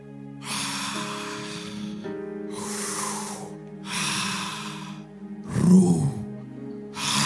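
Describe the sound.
Deep breaths drawn in and let out: a few long, airy rushes that come and go over steady low sustained tones.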